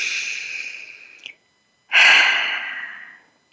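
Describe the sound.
Deep breathing during a guided eyes-closed exercise: a long breathy rush that fades out, a short pause, then a louder, fuller breath that tapers away over about a second and a half.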